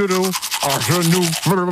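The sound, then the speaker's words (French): Toothbrush strokes scrub rapidly and rhythmically during teeth brushing while a voice mumbles words through the brush, with voiced murmurs broken by short pauses. “On réécoute l'extrait du brossage.”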